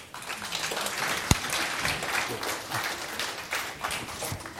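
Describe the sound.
Applause from a church audience as the team is welcomed up for communion: dense, steady clapping from many hands that holds for several seconds with one sharper clap standing out near the start.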